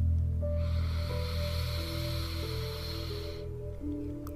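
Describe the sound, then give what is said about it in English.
A slow, deep breath during a guided deep-breathing meditation: one long, airy exhale of about three seconds, flowing over soft, sustained ambient music tones. “Slow and steady exhale. Deep breath in.”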